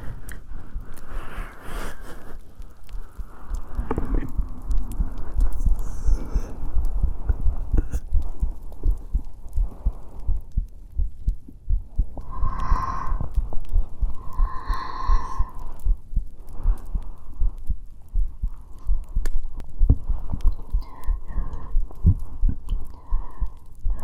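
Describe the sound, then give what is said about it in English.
Heartbeat thumps in a steady, repeating low throb with an underlying hum, many beats running through the whole stretch, with a faint tonal hum rising briefly midway. “My heartbeat is yours.”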